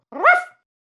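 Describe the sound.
A single short dog bark sounds alone, a bright, harmonic yelp lasting under half a second, followed by silence.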